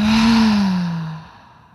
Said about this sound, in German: Atme jetzt noch einmal ganz bewusst über die Nase ein, über den Mund aus.